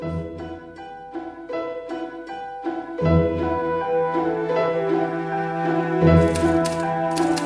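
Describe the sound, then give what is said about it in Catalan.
Typing on a mechanical typewriter, with rapid, steady clattering keystrokes and metallic clicks that continue throughout without pause. “Suposo que no deu saber escriure màquina. No serà tan difícil.”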